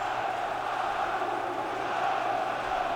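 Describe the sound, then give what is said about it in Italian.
Lazio football fans chant in unison at the Stadio Olimpico during an evening match, a loud, sustained wall of massed voices that holds steady throughout. “Ultras liberi. Sale alto il coro dei tifosi della Lazio adesso.”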